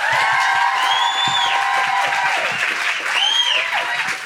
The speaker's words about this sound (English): Put your hands together and make incredible Gold Coast welcoming Guilty Feminist Noises